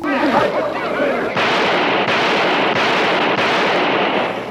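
Several loud, booming gunshots fired at a vampire in a dramatized horror scene, coming as a few sharp blasts at a steady pace over a dense, continuous roar.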